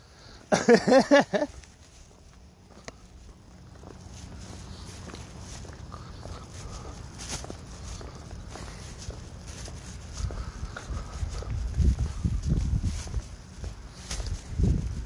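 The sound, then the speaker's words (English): Footsteps of someone walking outdoors, a steady run of soft steps through the whole stretch after a brief louder burst at the start, with a low rumble building toward the end. “So I'm just going to keep drifting and or walking.”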